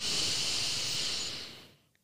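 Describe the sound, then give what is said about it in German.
A single long, deep breath drawn during a guided meditation, a loud, airy hiss that holds steady for well over a second and then fades into quiet, followed by a couple of faint clicks. No voices are heard. “nehme ich nochmal einen ganz tiefen Atemzug”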